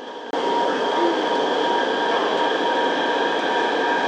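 Subway train arriving at Changping Dongguan station, heard as a loud, steady rumble with a constant tonal whine. The drone jumps up abruptly just after the start and then holds evenly throughout.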